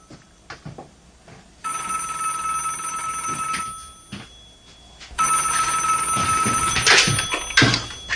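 Telephone ringing: two long, bright electronic rings separated by a short gap, with a few knocks and clunks before and between them.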